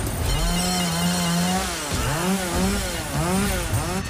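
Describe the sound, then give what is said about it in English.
A chainsaw cuts through a door, its engine snarling loud and continuous as the revs repeatedly surge and dip into the wood, with no voices. “He saws through the front doors.”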